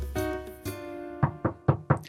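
Four sharp knocks on a door land in quick, nearly even succession. Each is crisp and moderately loud, interrupting a barbershop quartet's rehearsal.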